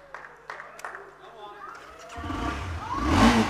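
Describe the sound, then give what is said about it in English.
A vehicle engine revs, its low rumble swelling and growing louder through the second half while a man talks excitedly over it. “Whoa! Should I stick it in gear and go on? I could do burnouts here. This would be fun. Okay, I'll put it down and turn it off.”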